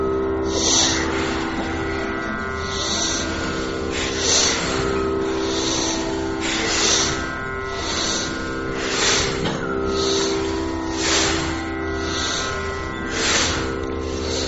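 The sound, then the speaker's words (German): Forceful exhalations during a breathing exercise: many rhythmic puffs of breath about a second or two apart, pushed out hard over a steady humming tonal background. “Machen Sie ruhig weiter. Was wichtig ist, dass Sie mit Kraft die Luft ausstoßen.”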